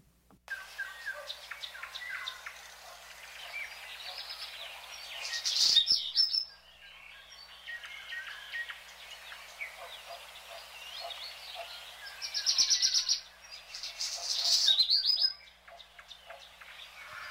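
Birds sing in spring in a faint, continuous chorus of high chirps and warbling phrases, with a few louder bursts of song standing out, and no voices.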